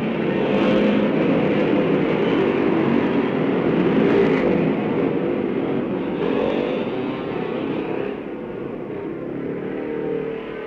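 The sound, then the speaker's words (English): Racing motorcycles, among them a Padgett Yamaha, thunder into life at the start of an Isle of Man race, their combined engines forming a loud, continuous roar that eases slightly toward the end. “Bill Pycroft, the timekeeper, raises the Manx flag now, and down, the race is underway. Just listen to these machines as they leap into life.”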